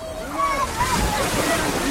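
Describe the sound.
A person lands in water at the bottom of a slide, making a brief, muffled splash and slosh near the middle, with people talking over it.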